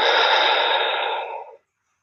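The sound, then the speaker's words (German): A deep breath during guided breathing, in through the nose and out through the mouth: one long, soft, airy rush of breath that thins and fades out over about a second and a half, with no talking. “Atme dazu tief durch die Nase ein und durch den Mund aus. Tief einatmen und durch den Mund ausatmen.”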